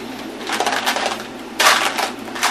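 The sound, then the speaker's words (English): Dice rattling inside a dice bucket during a tabletop role-playing game, a loud, continuous clattering shake with a brighter, stronger burst of clacks partway through and no voices. “Hand me the dice bucket. Oh. I like to use force dice for this.”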